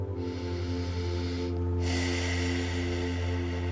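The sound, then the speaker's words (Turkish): Deep breathing during a guided relaxation exercise: two long, airy breath sounds separated by a short pause, heard over a steady, sustained tonal drone with no talk. “Şimdi bunu iyice solu. Derin bir nefesle o ışıkla bir bütün olduğunu hisset. Ve tekrar daha da derinden bir nefesle.”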